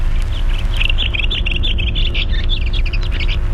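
A bird sings outdoors, a run of many quick, high chirps and twittering notes in rapid succession, bright and fairly loud above a steady low background rumble.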